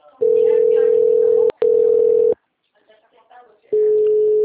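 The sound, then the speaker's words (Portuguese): Telephone hold tone on a bank account-opening call: a steady mid-pitched beep in three long stretches. A brief gap splits the first two, and a quiet pause comes before the tone returns. “Oi, a ligação estava em espera.”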